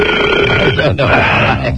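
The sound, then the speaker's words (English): A long, loud belch, low and rumbling with a gravelly, voiced quality, drawn out almost without a break across the whole moment. “And then he wants to belch.”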